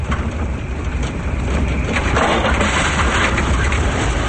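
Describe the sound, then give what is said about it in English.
A car engine rumbles as the vehicle rounds a corner and drives through a town at night. It makes a steady low growl with rough road noise that swells a little in the second half. “Rounding a corner, they drive through town.”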